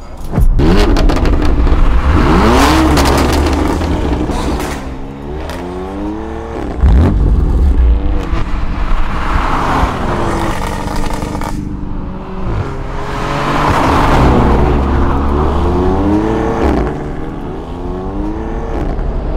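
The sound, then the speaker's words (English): A BMW i8 hybrid sports car revs loudly, its engine pitch sweeping up and down in a few repeated surges over a constant deep rumble, with no talk. “That right there is a BMW i8, £150,000 of technology,”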